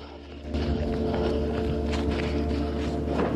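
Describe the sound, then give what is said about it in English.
People run over debris and mounds of rubble beside buildings in a combat area, with hurried footsteps blending into a dense, continuous gritty scuffle. “They run on past debris and mounds of rubble.”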